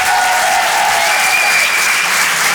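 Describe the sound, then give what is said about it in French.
Comedy club audience applauding at the end of a stand-up act, a dense, loud wash of clapping that continues unbroken from start to finish. “Faites du bruit, s'il vous plaît, pour Nina Azoulay.”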